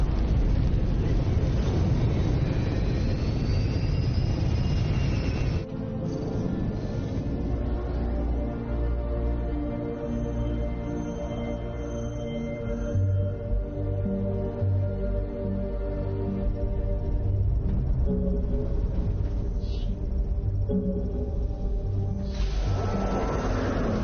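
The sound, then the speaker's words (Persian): A spacecraft roars as it lifts off toward the planet Aurora: a loud, sustained engine rumble with a droning hum that runs without a break and shifts in texture a few seconds in. “رهاسازی خانواده سیاره‌ای مقصد سیاره‌ای آرورا. میدونی معنیش چیه؟ آغاز پرواز.”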